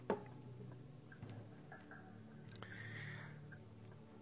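Faint ticking of a clock, a few soft, evenly spaced ticks against a quiet background, with one slightly sharper click at the start.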